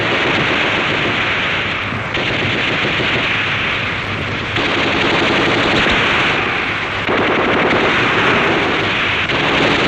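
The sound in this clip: Sustained machine gun fire, a loud, dense rattle of rapid shots that runs almost without pause for about ten seconds, with slight surges in intensity.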